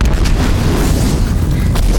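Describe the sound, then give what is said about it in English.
A film explosion from a charge set off by a detonator, tossing a militant vehicle. It is a loud, sustained roar of dense rumbling noise, heavy in the low end, that runs unbroken through the whole clip with no voices. “As the explosion tosses the closest militant vehicle, Four leaps up to the wall with Triss in his arms.”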